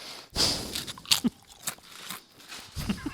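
Crunchy potato chips are eaten right at the microphone: a few loud, crisp bites and chews separated by short pauses, with no talk.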